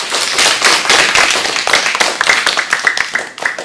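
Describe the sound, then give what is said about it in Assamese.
Loud, dense hand clapping from an audience at a stage singing event, cheering on a young girl who has just sung; many sharp claps blur into a continuous, uneven patter that keeps going to the end. “জোৰে জোৰে হাত চাপৰি বজাই দিয়া”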